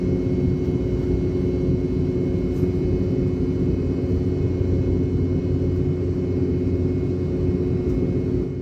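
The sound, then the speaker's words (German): Rolls-Royce BR715 jet engines drone steadily on a Boeing 717 at cruising altitude en route to Honolulu, a constant low roar laced with sustained humming tones that never changes in level. “BR-715 des britischen Herstellers Rolls-Royce. Sie wurden speziell für die Boeing 717 entwickelt und tönen hoch oben so. Hier auf dem Weg nach Honolulu auf Hawaii.”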